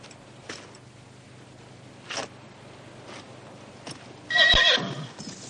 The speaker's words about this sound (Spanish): Monta de nuevo y se va al galope hacia su rancho.